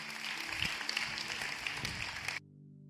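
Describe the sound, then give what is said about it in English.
Church audience applauding to welcome new believers into the faith: a dense, even patter of clapping that holds steady for about two seconds and then cuts off abruptly. “So can we just put our hands together and welcome people into God's family today?”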